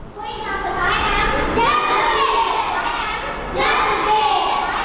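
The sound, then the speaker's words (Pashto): Children's voices at a school for working children run by a child welfare foundation in Peshawar, rising in a few sustained, overlapping phrases of group vocalizing with a couple of brief pauses between them. “دا اوازونه د خواري مزدوري کوونکو ماشومان لپاره په پیښور کې د رڼا چایلډ ویلفیئر فاونډیشن په نامه خوانځي دي.”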